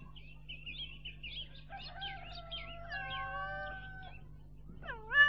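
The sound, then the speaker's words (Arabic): A cat and her kittens meow on a farm: a run of quick, thin, high mews chirps along, joined by longer drawn-out meows, with one louder meow near the end. “تعالوا شوفوا شو لقيت، مزرعة وفي حد هرة مع أولادها عم يلعبوا تحت الشمس.”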